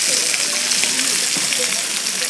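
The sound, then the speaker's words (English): Gourmet sausages sizzle on a market stall, producing a steady, dense crackling hiss that runs without a break through the whole moment. “This is what the sausages are like. That's the sound of the sausages sizzling.”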